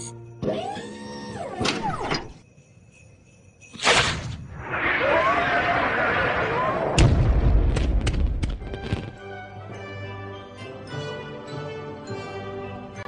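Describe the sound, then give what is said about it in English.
Bombs go off in a war zone in Iraq: several loud, booming blasts, each bursting into a rumbling, whooshing roar that lingers for seconds before the next hit. “you heard all the bombs go off there, and he brings Christmas joy to Iraq.”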